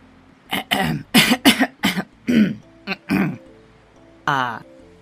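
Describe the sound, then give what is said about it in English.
A man clears his throat loudly and clumsily in a run of many rough, gravelly bursts of uneven length, followed after a pause by a longer voiced, grunting rasp. “clears his throat rather loudly and clumsily”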